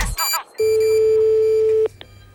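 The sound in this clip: A telephone call being placed during a radio call-in, heard as one long, steady, mid-pitched ringing tone of over a second, preceded by a short burst of sound and followed by quiet.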